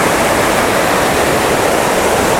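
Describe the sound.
River water flows in a steady, loud rushing roar, broad and unbroken, with no pauses or separate splashes.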